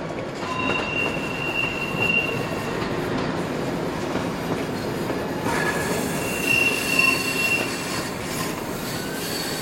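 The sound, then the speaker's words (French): A train rumbles in a steady, loud wash of rail and wheel noise, with thin, high wheel squeals drawn out over it in several places and no voices. “comme les employés fermaient les portières, le train se mit en marche.”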